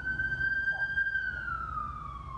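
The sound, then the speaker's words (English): An emergency vehicle siren wails downtown, holding a steady high tone that slowly slides lower in pitch in the second half, loud over a low background rumble. “sirens downtown.”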